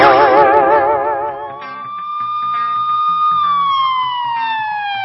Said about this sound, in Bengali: পুলিশের গাড়ির আওয়াজ না? তাই তো মনে হয়